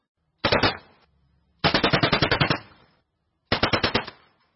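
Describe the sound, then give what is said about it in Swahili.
Warning gunfire from Cameroonian soldiers aimed at a fishing boat in a prohibited zone: three bursts of rapid automatic shots, the middle burst longest, each sharp and loud with quiet gaps between. “Wakiwa njiani kuelekea Nigeria, wanajeshi wa Cameroon wamefyatua risasi kuwatahadharisha mabaharia wa boti ya uvuvi iliyokuwa inafanya shughuli zake kwenye eneo ambalo ni marufuku”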